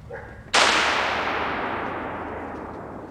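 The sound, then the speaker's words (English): A single loud rifle shot from an M1 Garand, the 1950s standard-issue service rifle, fired on a Marine rifle range. The crack lands sharply, then a long, slowly fading rumble trails off for several seconds. “That's a Garand M1 standard issue in the 1950s.”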